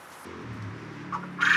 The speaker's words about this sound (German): Also unsere Wachteln legen am liebsten gern Nachmittag.